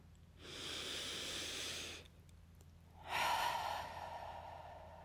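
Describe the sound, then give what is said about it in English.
A deep conscious breath: a slow, airy inhale of about a second and a half, a short pause, then a longer, slightly louder hissing exhale that fades gradually, quiet and alone. “Let's take a nice deep conscious breath.”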